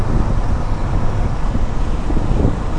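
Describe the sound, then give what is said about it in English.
Wind noise roars past a car with no air conditioning as it drives on the 101 freeway. Deep, constant rumble with gusty buffeting fills the whole stretch, with no voices. “just in case you ever wonder what the sounds are on the 101 freeway when I'm driving home in a vehicle with no air conditioner and a radio”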